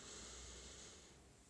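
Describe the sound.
A deep inhale during a guided meditation, a soft, faint, steady airy hiss lasting about a second and a half and easing slightly at the end, heard alone.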